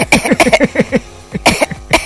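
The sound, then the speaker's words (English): A man coughs a few times in quick succession. The coughs are harsh, breathy bursts with short gaps between them, and two stronger ones come near the end. “And he's coughing.”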